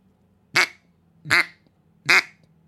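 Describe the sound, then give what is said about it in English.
Three loud, evenly spaced quacks blown on a duck call that imitates a hen mallard. Each is a short, raspy burst over a faint steady hum, with no talk. “one of the coolest things about a duck call is being able to go from to a flat quack”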